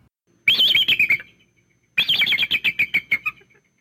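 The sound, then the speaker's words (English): Bald eagle call: two bursts of rapid, high-pitched chirping notes, each a quick run of thin piping calls, separated by a short silence. “Here's the sound of a bald eagle.”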